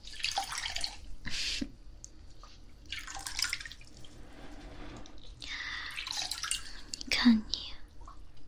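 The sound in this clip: Water sloshing and dripping as someone is bathed: soft bursts of splashing and trickling come and go, mixed with quiet whispering.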